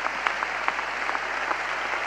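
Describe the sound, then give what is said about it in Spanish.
Crowd applause at a political rally, a steady wash of many hands clapping at moderate level, with a few sharper claps standing out. “Y quiero pedir un aplauso enorme para todos los gobernadores que nos acompañan.”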